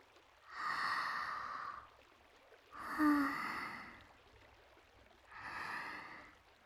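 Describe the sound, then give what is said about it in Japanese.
Three slow, deep breaths taken during a relaxing massage. Each is a long, soft, airy whoosh, faint and alone, with short pauses between them. “リラックスしてくださいね。深呼吸してください。”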